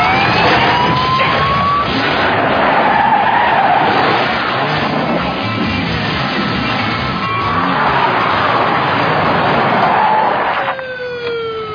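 Car tires skidding through a fast 180-degree turn, a loud, sustained, wavering screech mixed with engine roar that carries for about ten seconds before breaking off abruptly.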